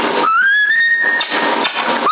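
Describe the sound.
A person whistles in imitation of a pet cage bird over a CB radio link. A thin tone slides upward and holds steady, followed by rougher broken sounds and a short upward slide at the end.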